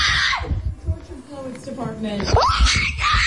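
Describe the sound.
A woman screaming and squealing in excitement over a newly announced album, high wavering cries mixed with laughter and excited talk.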